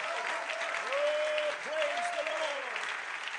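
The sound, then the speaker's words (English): Church audience applauding to give the Lord a hand clap during a sermon: dense, steady applause throughout, while a voice slides up and down in pitch over it. “Come on, let's give the Lord a hand clap.”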